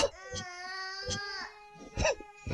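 Young children crying in strained, high wavering wails broken by short sobbing breaths and whimpers, the cries swelling and fading across a few seconds.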